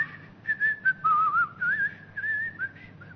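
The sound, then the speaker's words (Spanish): A person whistling a tune: a clear, steady melodic line of short and sustained notes with wavering, gliding pitch, moderately loud over a faint low hum, with no talking. “Me paso silbando.”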